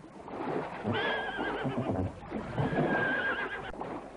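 A horse in a Kurdish cartoon neighs twice in succession. Each whinny is a loud, high, quavering call lasting about a second, with a short pause between them.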